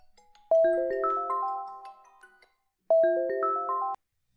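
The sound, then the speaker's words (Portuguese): Mobile phone ringtone signalling an incoming call: a bright melodic run of stepped electronic tones plays loudly, stops, then returns for a shorter second phrase after a pause of a couple of seconds. “eu não acredito que me estão a ligar. Olha, eu vou atender.”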